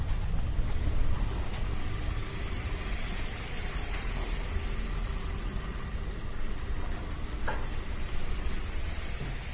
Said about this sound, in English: That's the sound of yet more machinery, a sort of spinning mechanical structure that's full of whirling green and blue lights.